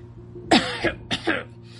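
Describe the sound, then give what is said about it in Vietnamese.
A man coughs twice in quick succession, each harsh burst followed by a shorter rasping tail, over faint background hum. “Kurt Ringer ho.”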